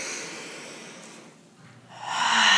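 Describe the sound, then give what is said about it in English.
Deep belly breathing during a group breathing exercise: a long, airy exhale fades out, then a strong inhale swells loud again, with no talk. “So let's all take three really deep intentional breaths together. So deep that your belly should move when you breathe in, right? So inhaling together”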